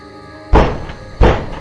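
Two heavy knocks on a door, loud dull thuds about 0.7 seconds apart, each with a short booming decay. No other sound is heard.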